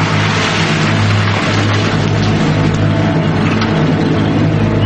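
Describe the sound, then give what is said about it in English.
Low, steady engine rumble of a beat-up blue truck pulling in front of a motel, a continuous droning hum that stays loud and even throughout. “Beat-up blue truck pulls in front of the motel.”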